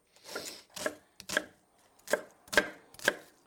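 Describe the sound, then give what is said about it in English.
A knife coarsely chops an onion on a board in several crisp, separate strikes at an uneven pace, each a short, fairly loud thud with no talk. “And now I'm just going to take an onion, and again, just coarsely chop. It doesn't have to be precise.”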